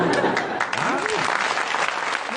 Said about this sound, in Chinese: 您知道刚才那阵掌声是什么意思吗？